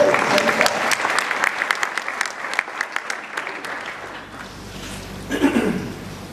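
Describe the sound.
Applause from a crowd at a religious service: many hands clapping in a dense, steady patter that thins somewhat in the second half, with a brief swell near the end.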